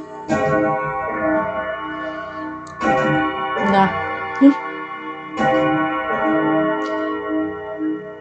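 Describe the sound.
A clock striking ten: three slow, evenly spaced chime strokes sound here, each a loud resonant hit with a long ringing decay that fades into the next.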